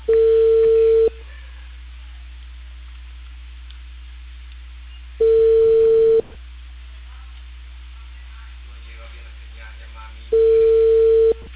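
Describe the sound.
A telephone line tone plays while a call is being placed: three steady mid-pitched beeps, each about a second long, separated by long stretches of quiet line hiss.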